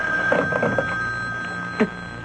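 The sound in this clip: A telephone rings with a rapid trilling bell burst near the start. Quieter stretches and a steady high hum follow.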